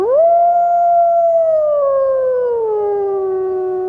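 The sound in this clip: A wolf gives one long, loud howl. It rises quickly at the start, holds a steady pitch, then slowly sinks lower toward the end, with no talk.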